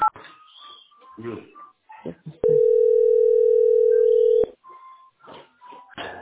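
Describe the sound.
While a call is being placed, a telephone ringback tone sounds as one long, steady, pure tone of about two seconds. A person talks before and after it.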